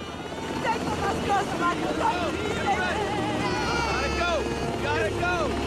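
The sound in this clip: Helicopter rotors roar through a film evacuation scene, a steady low drone running under many urgent, overlapping voices for the whole stretch.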